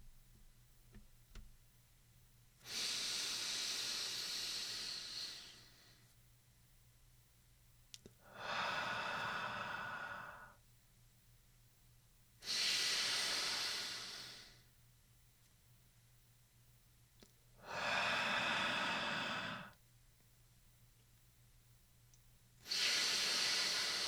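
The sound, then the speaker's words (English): Slow, deep breathing from a person during a guided morning stretching exercise: five long, airy inhale and exhale sounds, each lasting a few seconds and separated by quiet pauses. The last breath is cut off at the end. “Count 6 seconds for the inhalation and 3 for the movement of the air out. You can breathe along with me.”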